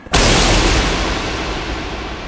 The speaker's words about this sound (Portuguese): E o feitiço proferido gera uma explosão que quase cega vocês.